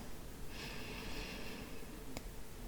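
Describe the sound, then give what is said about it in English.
A deep inhaled breath during a guided breathing exercise: a soft, airy hiss lasting about a second over steady background noise, followed later by a brief faint click. “And then take in the deepest breath you can.”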